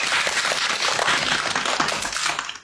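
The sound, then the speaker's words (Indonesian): Applause from an audience right after a performer finishes singing a song: dense, continuous clapping that stays steady and fairly loud throughout, easing slightly at the very end, with no talk over it. “Kita beri tepuk tangan untuk teman kita.”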